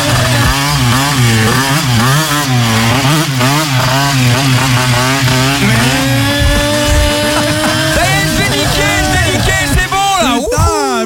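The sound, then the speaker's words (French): A motor scooter engine revs loudly and continuously, its buzzing pitch wavering up and down with the throttle, ending in a sharper, higher whine. “Attends, je prends le scooter top.”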